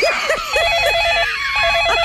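A telephone rings with a warbling electronic tone in fast repeated pulses that continue through the whole clip, with no talk.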